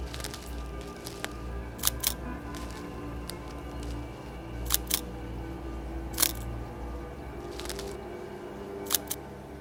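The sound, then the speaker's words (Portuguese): A camera with a mounted flash takes photos at a crime scene: several sharp, faint shutter clicks, some in quick pairs, spaced irregularly over a low steady hum. “Trouxe uma maletinha com uma máquina pra tirar umas fotos. Sabe aquela com flash que instala em cima, né? Vou me posicionar não muito perto pra não estragar as evidências, mas tirar algumas fotos.”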